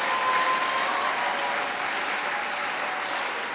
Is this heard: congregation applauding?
yes